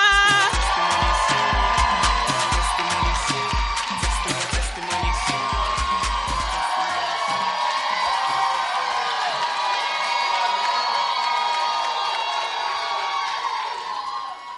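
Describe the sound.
A church audience cheers and applauds as a speaker is introduced to give a testimony. The crowd noise is loud and sustained, with whoops and shouts, and a steady low thumping beat runs under roughly the first half.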